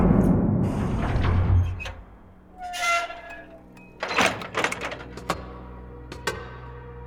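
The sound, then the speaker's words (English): A medical ship docking with a rocket: a low rumble fades away, then comes a brief hissing whoosh, followed by a series of metallic clanks and thunks of the docking. “Medical ship docking with Liberty Rocket.”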